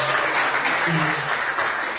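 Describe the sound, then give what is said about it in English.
An audience gives a round of applause for a guest performer at an event. The clapping is a thick, sustained, fairly loud wash, with a low voice briefly murmuring underneath midway. “We should give Chris a round of applause.”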